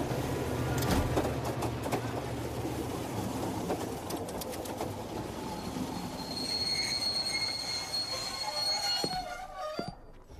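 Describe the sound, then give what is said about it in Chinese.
A passenger train pulls into a snowy mountain railway station, its broad rolling rumble joined by sustained high-pitched wheel squeals that grow prominent in the second half before the sound cuts off abruptly. “各位旅客请注意，列车即将到达秦岭车站，有在秦岭车站下车的旅客，请您整理好自己。”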